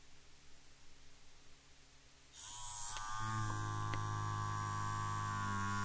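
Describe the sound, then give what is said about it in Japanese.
Timer alarm buzzing in vibration mode: after a few seconds of faint background hiss, a loud, steady, low buzzing hum with a rattly edge starts and continues unbroken. “この状態で右側面にある通知の切り替えスイッチを振動のところにセットします。最後にスタートボタンを押します。この時には音は鳴りません。”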